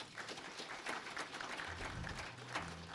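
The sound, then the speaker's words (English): Audience applause, a dense and even patter of many hands clapping. It stays faint and steady throughout, with no break. “let's give them a hand”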